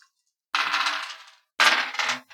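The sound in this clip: Dice rolled on a table during a tabletop game make two bursts of bright, rattling clatter, each lasting under a second with a short pause between them.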